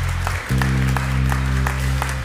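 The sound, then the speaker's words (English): Church audience clapping to congratulate people, the claps faint over a loud, sustained low keyboard chord that drops in level briefly near the start, then holds. “Come on, why don't we put our hands together? Congratulate people online, people in the room.”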